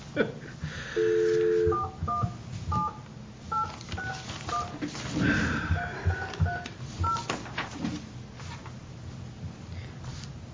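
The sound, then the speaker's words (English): Touch-tone keypad beeps as a telephone number is dialed, a number that is dialed wrong. A longer steady tone comes first, then a series of short, clipped dual-tone beeps at uneven spacing over faint background noise. “Didn't dial it fast enough. Oh, no, I dialed it wrong.”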